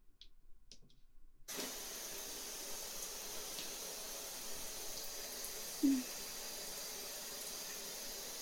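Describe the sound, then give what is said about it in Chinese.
Water running from a tap to fill a bath, starting abruptly after a brief near-silent moment, then a steady, faint, even hiss that continues to the end. “洗澡，洗澡。”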